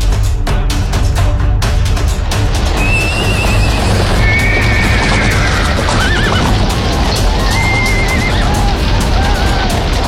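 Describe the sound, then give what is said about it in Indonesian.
Horses neigh again and again over hoofbeats as riders travel through a royal city at night. Several high, wavering whinnies rise out of dense, loud, steady noise. “Mereka berkuda hampir di sepanjang malam.”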